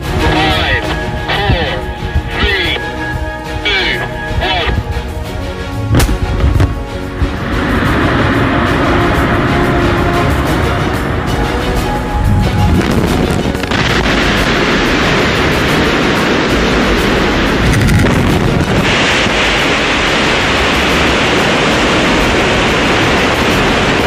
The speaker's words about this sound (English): This is a video that shows what dynamite can do.